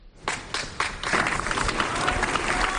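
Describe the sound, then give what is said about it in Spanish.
Applause from a crowd in the Plaza Mayor of Gandía ends a minute of silence for a murdered former mayor. It starts as a few scattered claps, then swells into dense, sustained clapping. “en la Plaza Mayor de Gandía y al finalizar un prolongado aplauso”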